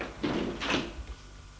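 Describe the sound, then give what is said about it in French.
A door being closed, heard as a brief cluster of soft, muffled thuds and knocks, fairly quiet, with no voices. “Il a fermé la porte.”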